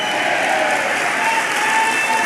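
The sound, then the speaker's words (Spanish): An audience claps its hands during a Spanish-language church service. The applause is loud, dense and steady, a continuous wash of overlapping claps with no single beat standing out, and it runs unbroken from start to finish. “Vamos, dele palmas, dele palmas al Señor. Dele palmas al Señor, dele palmas al Señor.”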